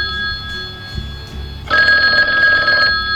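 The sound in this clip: An old landline telephone rings with a loud, buzzy, bell-like tone in one sustained burst in the latter half, after a quieter stretch of faint tones; no one speaks.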